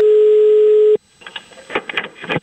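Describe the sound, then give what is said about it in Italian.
A steady, loud, single-pitched telephone tone of an outgoing prank call holds for about a second, then cuts off abruptly, followed by faint irregular noise bursts. “Chiamo Cappella, Cappella.”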